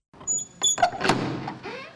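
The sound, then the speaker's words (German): A heavy door at an old Carmelite convent moves as visitors walk through it, giving a few faint creaks and clunks over soft background noise. “Wir gehen jetzt durch dieselbe Tür, durch die auch Teresa ging, als sie 1535 hierher kam und in den Orden eintrat.”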